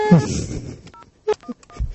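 Telephone number dialed on a keypad, heard as a few short, separate DTMF tone beeps in an irregular rhythm, with other brief sounds at the start.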